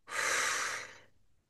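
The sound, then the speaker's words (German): One slow exhale from a 4-4-4 breathing exercise: a soft, breathy rush of air lasting about a second that fades out gently into silence. “Letzte Mal einatmen 4, halten 4, ausatmen 4”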